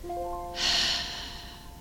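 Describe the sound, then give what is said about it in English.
A single deep breath during a morning meditation, heard as a long, airy rush of air that swells quickly and then fades slowly, soft and unaccompanied by talk. “Now we'll take a deep inhale and just let it go.”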